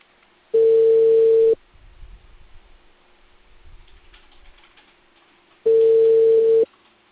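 A telephone line gives two long, steady ringback tones while a call is being placed. Each tone lasts about a second, with several seconds of faint line noise between them. No one speaks.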